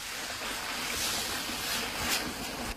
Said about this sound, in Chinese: 锅里的清水烧至冒泡，倒入洗净的大米，